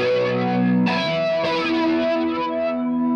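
Electric guitar through Carbon Copy delay, OCD overdrive and flanger pedals: a few gritty, saturated chords are struck in turn, each swelling into a dense, swirling sustain with echoes trailing underneath.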